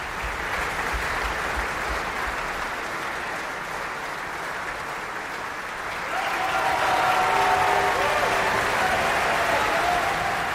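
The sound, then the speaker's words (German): Audience applause after an opera performance in Bayreuth: dense, continuous clapping from a large crowd that grows noticeably louder about halfway through and stays strong to the end. “Und Sie hören es am Publikum, am Applaus.”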